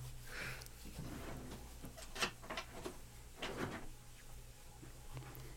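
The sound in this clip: A top drawer is opened to get a book. Faint scraping and a few soft knocks sound over a low, steady hum.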